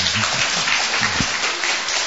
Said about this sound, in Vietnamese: Xin cả lớp cho một tràng pháo tay ạ.